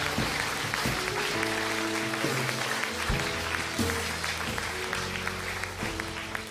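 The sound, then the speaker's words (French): Applause from an audience giving a standing ovation during a church worship service, a dense and steady clatter of many hands over sustained musical chords, with no voices standing out. “Est-ce qu'on peut faire une standing ovation pour le Seigneur?”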